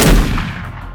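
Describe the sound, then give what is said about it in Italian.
A gunshot blast from a 12-gauge semi-automatic shotgun loaded with buckshot, the kind used for wild boar hunting: one loud, sharp report at the start, then a long rumbling tail that slowly fades, with no voices. “E spara. 1, 2, 3, 4 colpi.”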